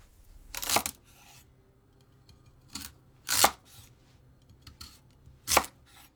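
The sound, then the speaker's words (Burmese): A knife slices a radish into 1 cm rings. A few crisp, crunchy cuts are spaced by pauses, three loud and one fainter, with no talk. “ပထမဆုံးမုံလာဥကို1စင်တီမီတာအထူးအကွင်းလိုက်လှီးပါ။”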